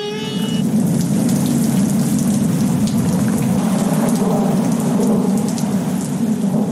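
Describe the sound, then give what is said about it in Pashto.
Heavy rain pours down steadily with a deep, continuous rumble of thunder beneath it, loud and unbroken throughout, with no voices. “په لنډو ورځو کې یو خطرناک باران را روان دی.”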